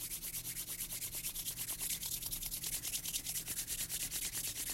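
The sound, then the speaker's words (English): Palms rubbed briskly back and forth during a teen meditation: a soft, steady swishing of skin on skin, repeating in a fast, even rhythm throughout. “begin to rub your palms together back and forth and back and forth, creating some friction.”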